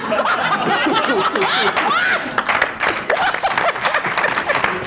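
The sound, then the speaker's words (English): Audience applause mixed with snickers and laughter follows a pun at a comedy show. The clapping is dense and continuous, and the laughter rises in bursts over it. “An applause break for a pun.”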